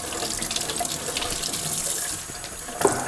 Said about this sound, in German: jetzt habe ich hier so ein mit Metall-Teesieb ausgeleert, wo noch Teereste drin waren. Das spüle ich jetzt auch einmal aus.